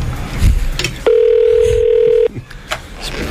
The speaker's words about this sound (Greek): Τηλέφωνο, ρε! Και τροφή μου, δεν θα το σηκώσει κανείς το τηλέφωνο,